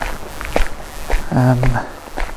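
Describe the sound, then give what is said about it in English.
Footsteps walking outdoors on a hike toward an abandoned croft near waterfalls, a loose series of soft, irregular steps at a moderate volume. “So I'm going to keep walking.”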